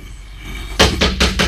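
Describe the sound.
Four firm knocks on a door in an old house, evenly spaced in a steady rhythm. Each is a sharp, loud thud standing out clearly above a low background hum.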